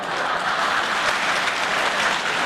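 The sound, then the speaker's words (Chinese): Warm applause from elderly audience members for child performers at a Beijing opera and folk-art show. The clapping is dense, even and steady throughout, with no talk over it. “你看，爷爷奶奶们给你这么热烈鼓掌，高兴不高兴？”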